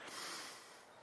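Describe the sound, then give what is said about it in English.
One deep nasal sniff, drawn in as if smelling something, gives a short, sharp, hissing inhale that peaks quickly and fades within about a second. “On the count of three, I just want you to take in, again, a deep breath, and like you're smelling it, okay?”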